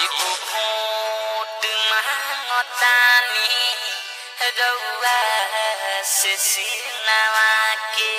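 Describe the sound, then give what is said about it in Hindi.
A phone caller tune plays through a phone line, a thin, tinny, continuous melody with bright sustained tones and no bass. “ये सखी बड़ा बढ़िया caller tune रखले बड़ू हो”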